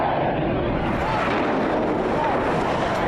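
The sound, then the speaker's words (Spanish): A passenger airliner with a full fuel load flies toward the north tower of the World Trade Center in New York, a loud, steady, broad roar that holds without break. “el egipcio Mohamed Atta tomó el timón y lo enfiló hacia la torre norte del World Trade Center de Nueva York.”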